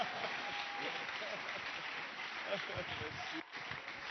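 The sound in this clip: Congregation applauding during a worship service as God is acclaimed: a dense, continuous wash of clapping, steady in level for about four seconds, with a brief dip near the end.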